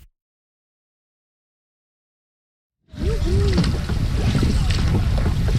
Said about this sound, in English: Paddling Gander Lake in central Newfoundland is a challenge. It's long, it's deep, there's the weather to deal with.